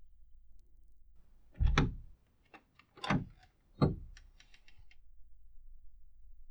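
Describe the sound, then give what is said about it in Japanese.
A cage door is opened with three main knocking clatters, spaced about a second apart, and a few small clicks between them over faint background hiss. “約束でございます。檻を開けて差し上げますね。”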